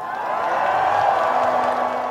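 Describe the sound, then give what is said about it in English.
A large crowd cheers at a pro-European rally in Moldova, making a steady, dense roar of many voices that holds at an even loudness throughout. “to be with you today before this massive, massive crowd of people who believe in a European future for Moldova.”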